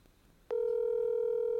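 An outgoing phone call ringing unanswered: after a faint quiet moment, a steady electronic telephone tone starts abruptly and holds at an even level.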